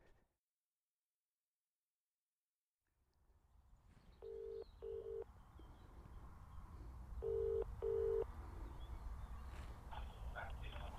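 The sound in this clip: Ringing tone of an outgoing phone call to the place where a Jack Russell Terrier was left: after a short silence, two double rings, each a pair of brief, steady low-pitched bursts, over a faint background hiss.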